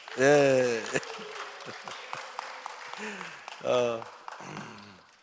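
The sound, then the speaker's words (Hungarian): Applause from a gathering, a loose patter of claps running under loud voices that rise at the start and again near the end. “Nagy tapsot Leventének.”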